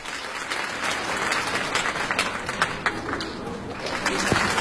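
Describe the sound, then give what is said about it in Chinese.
Audience applause at a live stage show in Beijing, dense and steady clapping from many hands that swells slightly toward the end, with a voice speaking over it. “感谢大家热烈的掌声啊！”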